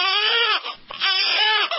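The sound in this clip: An infant cries loudly in wailing, strained bursts, with a short breath between cries as a new wail begins.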